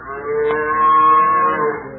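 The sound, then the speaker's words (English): A cow moos while being milked: one long, low, steady moo that lasts about two seconds and stays loud throughout, with no other sounds or voices around it. “Let me milk this cow right here”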